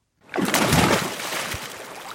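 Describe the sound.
Water splashes and sloshes as someone swims in the sea in the Gulf of Oman, off Iran's southern coast. A sudden burst of churning water rises quickly, then eases into a lighter, steady wash.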